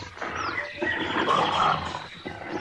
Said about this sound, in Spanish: Joder, sí que hay leones, o no sé qué es esto, pero vienen hacia aquí.